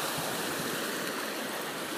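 Waves wash on the shore of Lake Michigan at South Haven, Michigan, in a steady, broad hiss of moving water that neither rises nor falls.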